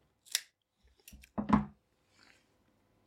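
A cigar cutter slicing a cigar makes a few short, crisp snipping clicks with brief gaps between them, quiet and with nothing else around.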